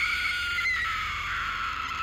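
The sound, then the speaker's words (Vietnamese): A girl's piercing scream, one sustained shrill cry held for about two seconds without a break, loud and alone with no talk. “Cô gái vẻ mặt ngơ ngác trong giây lát, rồi lại ôm đầu hét lên một tiếng chối tai.”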